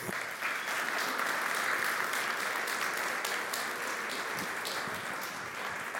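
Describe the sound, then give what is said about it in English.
An audience applauds as a family is welcomed onto a church stage, a dense, sustained burst of clapping that stays full and even from start to finish. “Let's give them a hand.”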